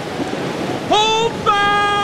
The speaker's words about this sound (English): it was proving to be no match for the treacherous waters, high winds, and turbulent currents the group was facing.